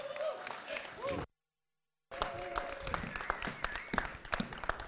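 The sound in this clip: Applause breaks out at a church service to welcome a speaker to the front: dense, steady clapping with a brief gap of silence, then sustained clapping with sharp individual claps.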